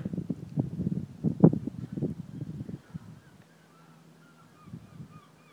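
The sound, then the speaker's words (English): Gulls calling: a cluster of rough, honking cries for about three seconds, then the sound drops away to faint, higher calls near the end. “You can just hear the birds in the background here.”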